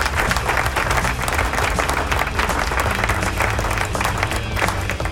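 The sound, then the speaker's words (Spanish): Applause welcoming the start of a rock show, a dense, steady wash of many hands clapping that stays loud and unbroken from start to finish. “¡Aplausos! ¿Dónde están los aplausos?”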